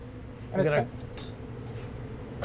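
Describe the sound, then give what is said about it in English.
Ceramic and glass clinks as a dish holding burrata is picked up and set down, with a few short bright knocks. A brief voice sounds among them over a low background hum. “So we take this dish here, just like so.”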